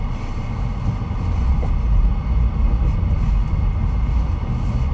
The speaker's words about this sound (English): so I'm gonna back into my parking spot. I don't always do that.